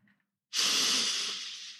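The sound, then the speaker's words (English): A single long, deep breath as part of a calming breathing exercise: a sudden, loud, airy rush that holds steady and then slowly fades, heard alone with no talk. “Let's take a deep breath.”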